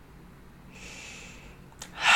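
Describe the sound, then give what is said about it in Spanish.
A person takes a long, deep breath: a soft airy hiss draws in for a while, then a short catch and a louder, rushing breath at the end. “Mi cuerpo entonces tomó una larga respiración y contestó:”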